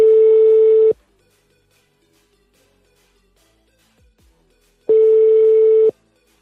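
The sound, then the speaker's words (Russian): Telephone ringback tone after a number is dialed: two steady, single-pitch tones about a second long, separated by roughly four seconds of near silence. “Набираю.”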